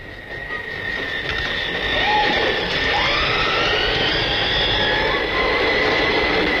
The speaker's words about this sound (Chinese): 注意，开往维也纳的快车到了。